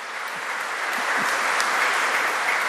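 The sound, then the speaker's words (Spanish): Congregation applause during a Pentecost church service: a steady, even wash of clapping throughout the short clip, with no voices standing out. “Y un aplauso al Señor, ¿eh?”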